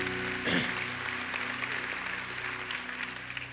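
A church audience at an Easter service applauds in a steady, continuous wash of clapping, with a low sustained musical tone beneath it.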